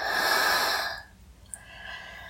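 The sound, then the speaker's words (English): Breathing in and out: a long, noisy rush of breath fills the first second, then fades into softer, quieter breathing with one brief faint click, and no talking. “Breathe in. Breathe out.”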